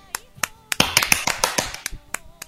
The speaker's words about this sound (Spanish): aplausos